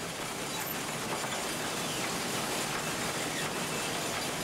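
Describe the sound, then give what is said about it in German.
A small coal-fired steam locomotive, over 100 years old, works up a mountain railway toward the Schneeberg. Its steady, continuous rumble and clatter of wheels and carriages is moderately loud, with no break. “Die Arbeit auf der kleinen Lok ist schwer. Nicht nur, dass sie beständig nach Kohle verlangt, die über 100 Jahre alte Maschine erfordert sogar während der Fahrt die pflegende Hand des Lokführers.”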